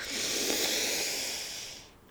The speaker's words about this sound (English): So let's go. Let's take in that breath.